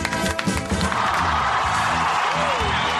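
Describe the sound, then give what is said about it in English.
Studio audience applause and cheering, loud and continuous, with dense clapping and scattered whoops that sustain throughout without a break. “We can applaud. The Todd Glass Show. All right. That's right. We don't do a shitty little applause. We play it up big.”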